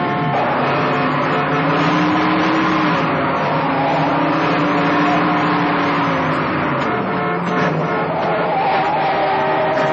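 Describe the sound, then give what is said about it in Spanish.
Car driven at full speed in a chase, swerving past other cars: a loud, sustained engine roar whose pitch wavers up and down across the whole stretch. “En el asfalto, Jimmy conduce a toda velocidad, esquivando a cuantos coches salen a su paso.”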